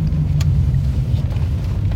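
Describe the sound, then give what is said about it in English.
Steady low rumble of a car driving on side roads with a 45 mph speed limit, the engine and road noise continuous and even throughout with no clear changes. “as I drive on these side roads, the speed limit is 45 miles an hour.”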